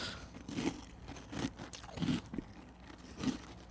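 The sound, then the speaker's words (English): Spyro cereal, a berry corn cereal, crunches close to the microphone as someone chews it, with a few crisp, brittle bites spaced irregularly and soft rustling and quiet mouth noise in between. “Do we want the crunch on the mic? Is that? Yeah, go for it. Yeah, okay. Definitely. Don't get any milk on there,”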